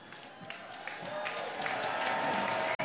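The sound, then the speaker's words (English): Audience applause at a stage event honouring the Prince Sing-Along Choir: a dense, steady wash of many hands clapping that holds at an even loudness throughout, with a brief cut just before the end. “Let's give Thomasina a bigger hand than that. Let's give the Prince Sing-Along Choir a hand.”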